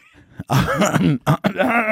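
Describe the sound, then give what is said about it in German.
A throat clearing, harsh and raspy, in a few quick guttural bursts that are fairly loud and stand alone without speech. “Entschuldigung. Wir haben keine Räuspertaste.”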